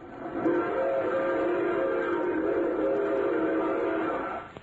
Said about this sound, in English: No, that's a train.